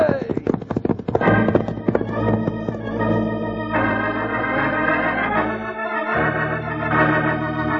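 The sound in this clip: Horses galloping off as riders leave, with rapid hoofbeats under a full music score. The music carries on as the hoofbeats fade.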